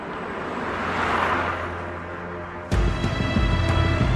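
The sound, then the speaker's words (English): Car driving through snow on a snowy road: a steady low engine and road rumble that swells and fades, then jumps abruptly louder partway through, with a few brief clicks. “The trucker heads back out onto the road. Meanwhile, Helen drives through the snow.”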